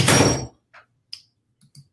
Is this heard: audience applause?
no

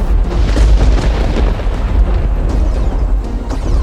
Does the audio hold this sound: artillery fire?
yes

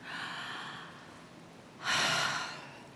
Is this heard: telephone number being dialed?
no

